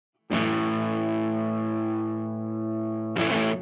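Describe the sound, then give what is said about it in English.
An electric guitar chord played through a reverb effect rings out with a distorted, shimmering sustain for about three seconds before a second strum, heard alone. “Hit that. Ooh. That's some reverb.”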